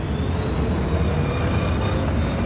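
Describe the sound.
Rocket engine thrust roars in a voice-controlled space game: a dense, steady rushing noise that holds at an even level for the whole stretch, without breaks or pauses.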